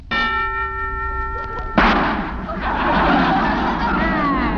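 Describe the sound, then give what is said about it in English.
A gunshot during target practice: a single loud bang after a steady ringing tone, followed by a lingering noisy wash. “That's the first time I ever heard a preview of a gun going off.”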